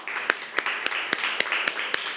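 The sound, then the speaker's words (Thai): Children applaud a classmate in a classroom: about eight sharp claps stand out above a steady, dense patter of many small hands, all fairly even in loudness. “ปรบมือให้เพื่อนหน่อยครับ”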